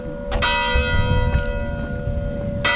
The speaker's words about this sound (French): pour moi, c'est cette chambre dans le chalet et cette cloche qui sonne.